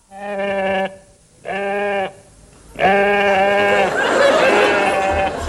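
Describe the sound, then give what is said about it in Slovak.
A ram bleats three times, each call a long, wavering, harmonic cry, the third one loudest and running into a rougher, noisier stretch at the end. “Ten diviak tuším blačí. Čo si to? Veď je to barán.”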